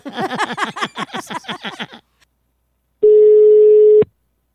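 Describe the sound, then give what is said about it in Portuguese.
Outgoing telephone call ringing on the line: one steady, sustained ringback tone lasting about a second, heard alone after a brief burst of rapid, pulsing sounds and a short silence. “Uma ligação, vou fazer agora pra Mércia.”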